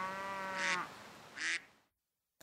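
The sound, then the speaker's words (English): A duck quacks at an adventure park with farm animals, giving two loud, nasal, raspy calls a short pause apart before silence. “Let's hold a baby duck.”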